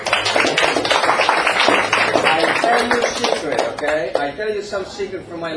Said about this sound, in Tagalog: Sige, palakpakan dahil ka ulaw. Palakpak gud.